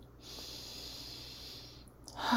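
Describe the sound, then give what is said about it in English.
A long, deep breath taken during a guided relaxation exercise: a quiet, steady, airy hiss of air that lasts about two seconds, heard on its own without talk. “take another big, deep breath”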